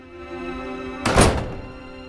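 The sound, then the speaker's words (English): A door thuds shut as a man steps out of a house hallway into daylight: one heavy, muffled thunk that swells briefly and fades, with no voices. “He makes his way outside into the daylight and closes the door behind him.”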